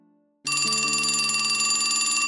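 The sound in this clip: Telephone ringing, a bright, steady electronic ring that starts abruptly after a brief faint low tone and carries on loudly to the end, with no voices.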